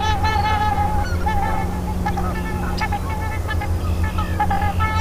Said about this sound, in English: It's known as the unison call, a part of the mating game as important as their flamboyant wing display.